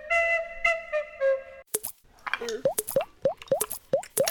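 Water drips from a melting ice igloo, making many quick plops with a rising pitch that fall in an irregular rhythm.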